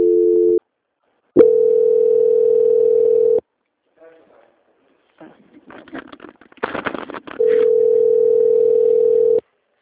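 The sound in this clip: Telephone transfer tones during a customer service call being passed to another department: a steady single-pitched tone sounds in three stretches, separated by silence and short patches of broken, noisy sound.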